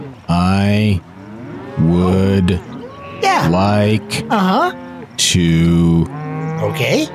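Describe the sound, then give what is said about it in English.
Cattle moo in a pasture during a slow-paced cow-wrangling contest: several loud, drawn-out lowing calls with bending pitch, separated by short pauses. “it's time for our slow-paced cow wrangling contest. The slower you go, the more you win. It is a barn burner out here today in Farmer Jack's pasture.”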